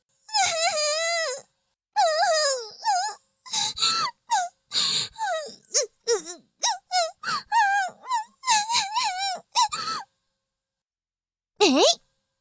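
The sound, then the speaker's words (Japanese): Fake crying from a voice imitating sobs: many high, wavering wails in quick bursts, then a short pause before one last rising wail. “嘘泣きはずるい？”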